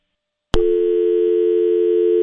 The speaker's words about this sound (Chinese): 哎呦，又有一个听众朋友打电话进来啊，没关系，我们再接一位听众朋友的电话。